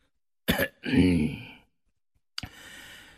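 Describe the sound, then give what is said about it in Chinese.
Light coughing and throat clearing from one person: a short rough burst, then a longer voiced rasp that fades, followed after a pause by a brief faint click and soft breathy noise. No speech. “王洪旭轻咳了一声，”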